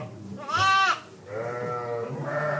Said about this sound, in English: We're here at the Séguin farm in August, and there are lambs in the barn